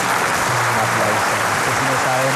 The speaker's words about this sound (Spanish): Un aplauso para el rey Francisco I de Cundinamarca. Ya, bravo.